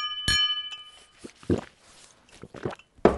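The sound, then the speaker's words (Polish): A single bright, ringing clink of small liqueur glasses touching in a toast, followed by a few quieter knocks and soft clunks. “No, trąćmy się.”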